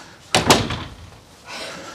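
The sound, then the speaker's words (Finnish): A door is pushed shut at an evening information session, giving one sharp slam followed by a brief rattle, then soft background noise. “Mä laitan tuon oven kiinni, näette paremmin.”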